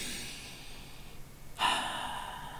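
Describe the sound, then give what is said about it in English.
A deep breath during a guided relaxation: faint airy breathing at first, then a louder, fuller breath starts suddenly and holds steadily to the end, with no talk. “So just take a minute to take a couple of deep breaths”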